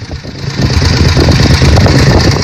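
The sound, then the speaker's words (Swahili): Engine of a 1939 500cc motorcycle nicknamed La Poderosa, a loud, steady, continuous drone that holds level throughout without any voices. “500cc walioibatiza jina Le Poderosa, maana yake the mighty, yani mwenye nguvu.”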